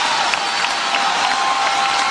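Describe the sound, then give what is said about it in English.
Applause from a crowd giving a standing ovation: dense, steady clapping that holds at an even level throughout, with no voices over it. “Standing ovation. How could you not standing ovate to this?”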